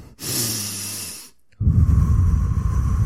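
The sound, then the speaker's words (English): A person takes a deep breath, heard alone as a long airy rush, then a short silence and a louder, fuller rushing breath that runs to the end. “I'm going to take a deep breath here.”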